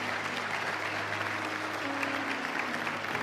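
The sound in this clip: Audience applause welcoming a new missionary associate to South Africa during a morning gathering. Dense, even clapping holds steady at the same level from start to finish, with no voices over it.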